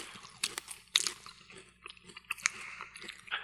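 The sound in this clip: Crunching of chips made from crickets being chewed: dry, crisp bites and irregular munching, fairly quiet, with a few sharper crunches standing out.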